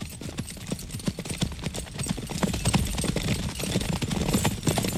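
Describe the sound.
Hooves clip-clop as horses are ridden, with many rapid, steady beats that keep going at a loud, even level throughout.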